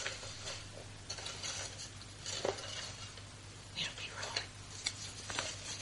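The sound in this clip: Raffle tickets are stirred for the Boona Fruit Supply prize draw, a faint irregular rustling and light clattering in a few soft bursts, with quiet voices murmuring underneath.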